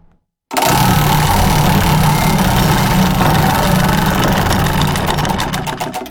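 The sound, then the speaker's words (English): A prize wheel spins during a call-in giveaway. A loud, dense whirring rattle starts abruptly and runs steadily, and distinct clicks emerge toward the end. “Round and round and round it goes. Where it stops, Samantha Olson.”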